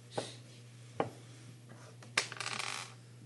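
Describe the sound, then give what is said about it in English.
A single die rolled during a Christmas tabletop game: a few sharp clicks, then a short clattering rattle as it tumbles and settles. “4. You only rolled 1 dice.”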